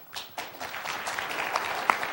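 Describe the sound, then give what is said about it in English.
An audience applauds the president with steady, many-handed clapping. It is fairly soft and dense, with a few sharper claps standing out. “The president waited for the applause to settle”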